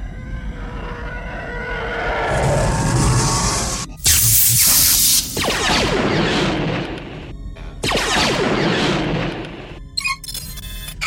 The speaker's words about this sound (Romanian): Au tras în noi. Modulul de comunicație a fost grav avariat. Am pierdut legătura cu baza. Am pierdut și unul dintre motoare.